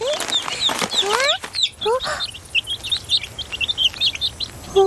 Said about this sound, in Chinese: 小鸡起床了